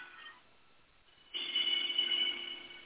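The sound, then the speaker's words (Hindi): A mobile phone rings during a Sanskrit grammar lesson. A faint hum gives way to a loud, bright, steady electronic ringtone partway through, and it keeps sounding without speech. “अभी थोड़ा उसको काटिए ना, mobile को काटिए, जो कर रहा है उसको काट दीजिए, बाद में कर लीजिएगा।”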